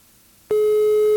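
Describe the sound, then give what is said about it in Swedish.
After a brief moment of near silence, a telephone line tone starts abruptly as a single steady, even pitch and holds unchanged to the end, during a call that goes unanswered. “Vi gir den ett ring til. Kom igjen, Mats. Nei, dessverre. Det var ikke mulig å få tak I Mats på morgenen I dag.”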